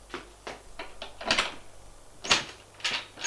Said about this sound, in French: Il va ouvrir l'armoire.